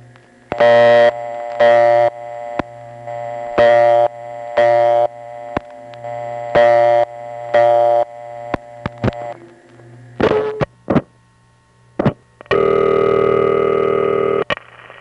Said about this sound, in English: Because here, it's basically the same tone, but they're using it for a purpose that isn't seen anywhere else. Instead of being the partial dial signal, it's the vacant code tone.